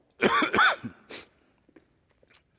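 Coughing and throat clearing from a tickled throat: a couple of loud, harsh coughs in quick succession, followed by a few faint, brief throat noises trailing off.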